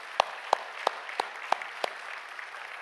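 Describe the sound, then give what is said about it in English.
A church audience applauding during a morning service to welcome a former pastor and companion: six sharp, evenly spaced claps ring out over a softer steady wash of clapping. “Let's give them a hand this morning and welcome them to the service.”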